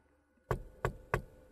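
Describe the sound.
Someone knocks three times on the door of a room in a house. The knocks are firm, evenly spaced and fairly quiet, heard alone with no voices.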